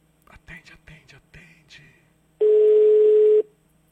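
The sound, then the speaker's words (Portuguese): A telephone ringing tone on an outgoing call sounds once as a single steady, low, level tone of about a second. Faint speech comes before it and silence follows. “Tá chamando o telefone.”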